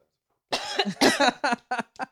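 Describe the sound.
Harsh coughing from someone with something caught in the throat: a quick run of several loud, rough bursts, the last ones shorter and spaced by brief pauses.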